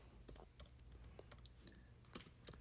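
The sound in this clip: Faint typing on a computer keyboard: quick, irregular clicks and taps patter along over a low steady backdrop.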